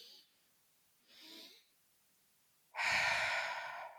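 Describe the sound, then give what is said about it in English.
Breathing for stress relief: a soft, short inhale through the nose, a pause, then a long, noticeably louder exhale through the mouth that fades gradually. “it's a big inhale through my nose, hold it for a second, another little sip in through my nose of air, and then breathe out through my mouth.”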